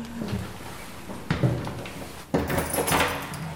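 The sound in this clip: An apartment door being unlocked and opened with keys from a caretaker's envelope: a few sharp clunks and rattling knocks over a low background hum, with two louder impacts standing out.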